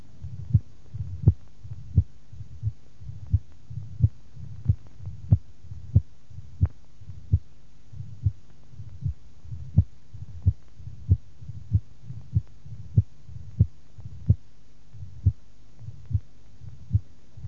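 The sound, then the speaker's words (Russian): Heart sounds heard over the pulmonary artery, with an accentuated second tone, in the setting of mitral stenosis. Many dull, low thumps repeat in a steady rhythm over a faint continuous hum, with no voices. “На легочной артерии второй тон акцентирован.”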